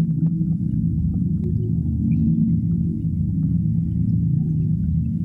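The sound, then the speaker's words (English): A low, rumbling electronic drone built from hydrophone recordings of blue whales. It rolls on loud and unbroken throughout, a dense bass rumble with faint higher whale-like calls drifting through it. “What you're hearing is part of a collaboration with sound art curator Andrew Spirou, made for Documenta. It's called South Pacific Migration Party, and it's based on hydrophone recordings of blue whales.”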